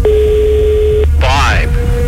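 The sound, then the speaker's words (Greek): Steady single-pitched ringing tone of an outgoing phone call: one long ring of about a second, a brief burst of other gliding sound, then the tone starts again. “Τρίτο χτύπημα, δεν μ' αρέσουν αυτά. Τέταρτο, σήκωσε το τώρα.”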